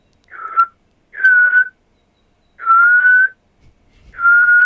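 A person whistles in imitation of a melancholic nocturnal animal call: four clear, steady-pitched whistled notes, each about half a second long, repeating at roughly one-and-a-half-second intervals.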